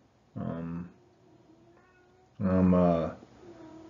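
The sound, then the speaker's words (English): A male pet cat meows twice: a short harmonic cry, a pause, then a longer and louder drawn-out yowl. “That's my cat. He's being a pain in the behind.”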